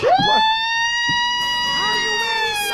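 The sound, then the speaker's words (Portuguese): An ambulance siren sounds loudly, its tone sweeping quickly upward and then holding a sustained, harmonic-rich wail that wavers briefly near the end. “Que isso? Ambulância? É, ambulância.”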